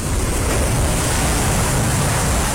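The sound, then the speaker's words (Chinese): Rough sea waves pound against rocks on the shore, a continuous loud roaring wash with no distinct breaks and no voices. “大海波涛汹涌，海浪恶狠狠地拍打在海边的岩石上。”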